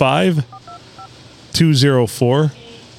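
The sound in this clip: Touch-tone keypad beeps as a telephone number is dialed: a few short, clipped tones in quick succession, set between stretches of people talking.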